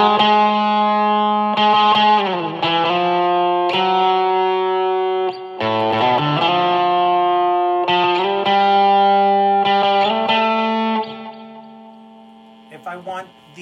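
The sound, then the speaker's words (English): Electric guitar playing a slow ballad through a Tech21 Fly Rig SansAmp with reverb added, sustaining ringing chords and notes with smooth changes between them, holding steady before fading and thinning out at the end. “So say like a ballad. Have on a bit of reverb from the Sansam side.”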